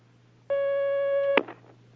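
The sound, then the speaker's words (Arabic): A telephone line tone sounds as a phone call comes through: one steady, clear electronic tone holds for under a second, then cuts off with a sharp click and a brief, faint rustle. “هناك مكالمة على الخط، تفضل.”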